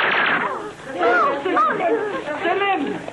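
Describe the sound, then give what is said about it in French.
A gunshot in a dramatized action scene, a single sharp burst at the start followed by men talking over the scene. “Hé, mec, c'était pas utile de tirer.”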